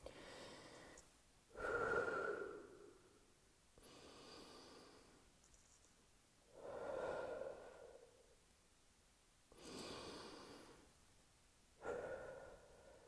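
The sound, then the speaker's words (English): Slow, deep breaths are drawn in and let out one after another, each long and airy with quiet gaps between, faint and alone with no talk. “maybe the Holy Spirit is received through deep breaths. There's an idea. I'm going to visualize it. Let's do this. Some Holy Spirit, some holy deep breaths.”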